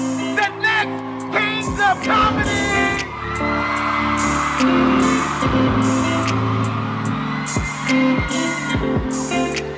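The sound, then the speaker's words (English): A live comedy roast crowd in Montgomery cheering, whooping and yelling over steady loud music, with occasional sharp bangs and voices shouting throughout. “I want everybody to start clapping! Start clapping right now! Start clapping right now!”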